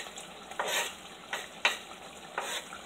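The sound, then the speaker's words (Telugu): Gravy in a pan being stirred as coriander is added: soft sizzling under four distinct scraping stirring strokes, faint overall, with no voices. “ఇప్పుడు మనము లాస్ట్లో కొత్తిమీర వేద్దాము”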